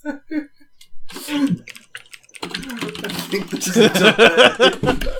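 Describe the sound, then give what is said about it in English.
Fingers type on a computer keyboard, producing rapid, irregular bursts of crisp clicking keystrokes that grow busier and louder toward the end. “See? I fucking typed that just fine. There's no delay.”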